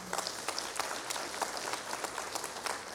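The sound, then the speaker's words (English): An audience applauds with steady clapping from many hands. The applause is moderately loud and continuous for a few seconds. “Come on, give them a big hand.”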